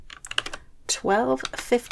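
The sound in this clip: Computer keyboard typing, as a date and time are entered, comes as a quick run of light clicks, with short stretches of voice between bursts of keys.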